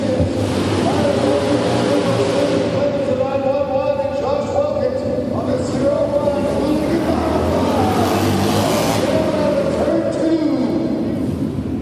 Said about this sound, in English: Hear the Scout 60 motors? Those things just sound so crisp and differentiated from the Harleys.